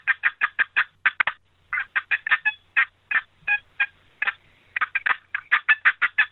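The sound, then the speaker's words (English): Turkey call blown with improper rhythm gives many quick, high, raspy yelps, rushed together in fast bursts with only brief pauses between the runs. “You take a turkey call and go.”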